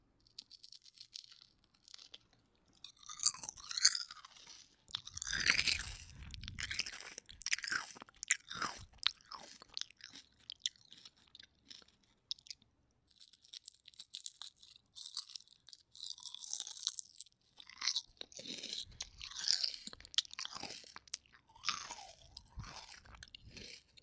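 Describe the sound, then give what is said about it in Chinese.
Crunchy chewing of crispy fried yellow croaker fish: many loud, crackling bites come in bursts with short quiet pauses between them, and no talking. “这个黄鱼酥酥的，特别脆的”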